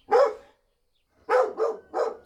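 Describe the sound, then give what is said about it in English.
Dogs bark loudly and alone. One sharp bark is followed by a pause, then three barks come in quick succession. “dogs barking”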